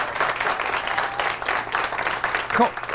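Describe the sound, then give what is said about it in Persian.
Audience clapping in honour of Tahmoures Pournazeri: a full, steady burst of many hands, loud and continuous for a few seconds without a break. “به افتخار طهمورث پورناظری دست بزنید.”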